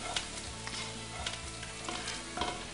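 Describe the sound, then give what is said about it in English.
Pasta frying in a pan: a steady, loud sizzle broken by a few short, sharp bursts as it is stirred and tossed. “So now take the pasta, put it in the pan,”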